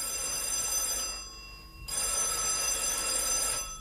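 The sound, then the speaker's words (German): Telephone bell ringing in two long, steady bursts separated by a brief pause, bright and insistent with no voices. “Aber dieses Klingeln hat nichts mit der Polizei zu tun. Das ist nämlich der Pfarrer von Summering, der mit dem von Schellenberg spricht.”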